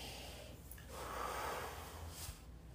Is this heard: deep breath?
yes

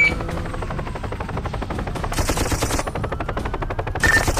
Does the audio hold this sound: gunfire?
yes

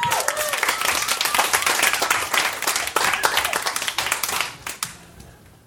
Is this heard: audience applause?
yes

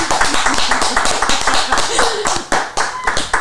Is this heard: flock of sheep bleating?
no

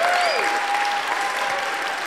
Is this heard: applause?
yes

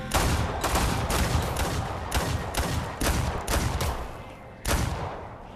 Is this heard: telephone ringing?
no

